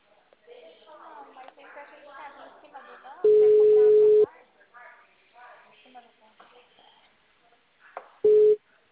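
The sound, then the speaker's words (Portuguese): Telephone busy signal: two loud, steady, mid-pitched tone bursts, the first lasting about a second and the second much shorter, with softer voices talking before, between and after them. “Tá ocupado.”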